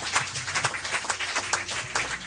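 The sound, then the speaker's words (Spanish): A church audience claps, with separate hand claps standing out in a quick, uneven patter. The clapping is moderately loud and stays fairly even throughout, with no clear voices over it. “Denle un aplauso, que vive y permanece.”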